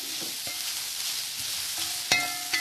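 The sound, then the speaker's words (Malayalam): Grated coconut sizzles as it browns in a pan with prawns, a steady frying hiss with scattered soft stirring clicks and two sharper spoon scrapes near the end. “ഒരുമാതിരി ഒരു brown കളറാവുന്നത് വരെ വഴറ്റുക. Brown കളറായി. ഇനി നമുക്ക് എടുത്തു വച്ചിരിക്കുന്ന തേങ്ങ ഇതിനകത്തേക്ക് ഇടുക.”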